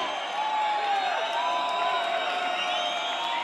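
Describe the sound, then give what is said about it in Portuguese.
Crowd cheering and whooping from the audience at a live Brazilian rap show as a DJ is introduced, a dense, steady roar of voices that holds at the same loud level throughout. “Com vocês, muita salva de palmas para DJ Dri!”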